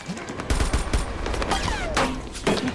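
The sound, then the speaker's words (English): Bullets hitting armour panels carried by a crawling group under fire, heard as a dense, continuous clatter of sharp impacts and gunshots at a steady, fairly loud level. “They flinch at the noise of the bullets hitting the panels.”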